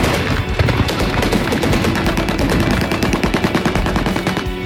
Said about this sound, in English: They counterattacked. Heavy machine gun fire didn't stop them.